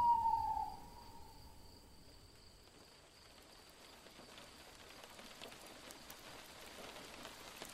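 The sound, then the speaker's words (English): An owl hoots in a quiet nature setting, giving one short faint call at the start. A soft, steady patter of rain continues alone for the rest of the stretch. “The only sound you can hear is the owl and your breath.”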